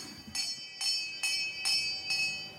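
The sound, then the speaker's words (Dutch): A homemade doorbell at a squatters' camp rings five times in an even rhythm, each bright metallic chime ringing out over a low background hum, with no talk. “Een deurbel. Die heb je gemaakt zelf?”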